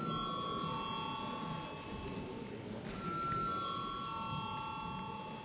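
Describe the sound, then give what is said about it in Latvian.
A chairman's bell rings in the Latvian parliament before a vote. It is a steady, sustained ringing with a slight change in tone near the middle, set against a continuous background of noise. “Paldies, lūdzu zvanu.”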